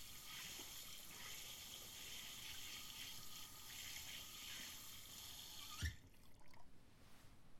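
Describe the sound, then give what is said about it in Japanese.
Water rinses hair during a hair wash, a steady flowing hiss for about six seconds that ends with a soft knock, leaving faint rustling. “じゃあ流していくね。”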